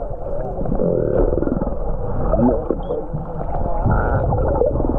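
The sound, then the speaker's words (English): A 10-metre humpback whale blows as it is released from a shark net offshore in Queensland, a deep, continuous rumbling groan with shifting tonal moans, loud and steady throughout, with no voices. “That was the sound of the 10-metre humpback blowing as it was released from its 12-hour ordeal trapped in a shark net”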